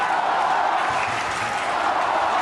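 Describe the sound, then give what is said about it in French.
Spectators at a clay-court tennis night match featuring Nadal fill the air with a dense, steady wash of crowd noise, even in level throughout with no distinct claps standing out. “Les encouragements du public n'ont pas suffi.”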